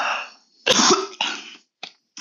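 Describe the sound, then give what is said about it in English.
A few harsh coughs from one person: the first burst is the loudest and longest, then shorter, fainter bursts follow with a throat-clearing roughness. No talk. “I think, sorry, I'm going to cough.”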